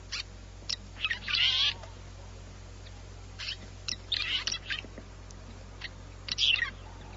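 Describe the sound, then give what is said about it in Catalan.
Red-rumped swallow calls: faint high chirps in three short clustered bursts with scattered single notes between them, over a low steady hum. “En aquest cas, anem a escoltar aquesta oreneta cua rogenca.”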